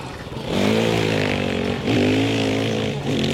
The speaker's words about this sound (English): I'm gonna have to head through the park on my bike if I'm gonna have any hope of making it.